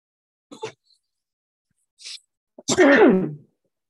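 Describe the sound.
A single loud human sneeze, preceded by a couple of short, faint breathy sounds, ending in a strong voiced burst that falls in pitch, followed by silence.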